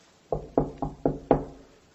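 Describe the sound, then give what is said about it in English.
Five firm knocks on a door, evenly spaced and sharp, each a solid thud that decays quickly, with silence before and after. “And the analogy of knocking on a door,”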